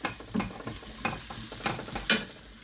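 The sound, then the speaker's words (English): Cooked, cooled rice is stir-fried in a hot pan, with a soft sizzle under a few scraping stir strokes. The strokes come in uneven bursts at moderate loudness, with no talk. “So you've already cooked and cooled your rice, importantly. And we're going to re-add the rice to the pan.”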